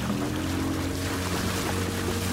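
A motorboat drones along a wide river among forested islands on a humid early morning, its engine a steady, low harmonic hum beneath continuous rushing water and wind noise, with no voices.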